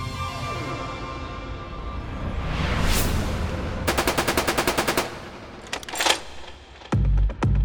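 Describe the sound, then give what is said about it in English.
Rapid automatic gunfire from an M16 rifle firing round after round in one loud, tightly spaced burst of many shots, set among heavier bangs and low rumbling. “The M16 unloaded, firing round after round in ear splitting succession.”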